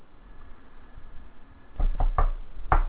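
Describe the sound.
Knocking on a door: after a quiet, hissy stretch, a quick run of sharp raps comes near the end, then one more knock shortly after.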